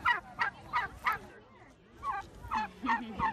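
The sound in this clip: Turkeys call at an animal sanctuary, giving short, repeated gobbling calls in a quick run of about four, then a brief lull before another run of similar calls.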